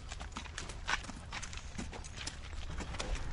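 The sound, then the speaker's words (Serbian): Hooves of a black-and-white horse clip-clop at a slow walk while carrying a young rider, a steady run of many hoof beats over a low, constant background rumble, with no talk. “Kažemo konju, kreni konju. Kreni. Tako, idemo polako.”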